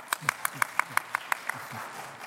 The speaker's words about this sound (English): So, for the otologists in the audience, put your hands together to show me some support.